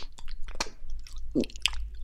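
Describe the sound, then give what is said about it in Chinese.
Chewing and eating food such as grilled chicken wings and a sundae at home, with several crisp, crunchy bites and wet mouth clicks in an irregular rhythm, close and clear with no talking. “正在吃东西呢”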